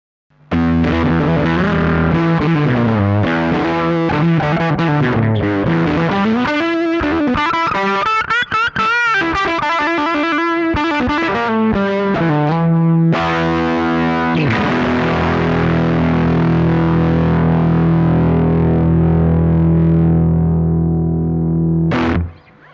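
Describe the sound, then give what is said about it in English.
A Fender Stratocaster with 65 Pure Vintage pickups runs through an early-style two-transistor Fuzz Face pedal into an amp. It plays gritty, fuzzy licks with note bends, then a long, ringing fuzzed chord that sustains until an abrupt stop. “I'm using the same Fender Stratocaster with the 65 Pure Vintage pickups going into fuzz face, and then the same amp. I haven't changed any of the settings. So here's what the fuzz face sounds like.”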